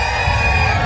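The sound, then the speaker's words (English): Thousands of fans cheering at a Fourth of July rodeo on Maui, Hawaii: a loud, dense, continuous roar of voices and whoops throughout. “That's the sound of thousands of fans at the 4th of July Makuau Stampede on Maui.”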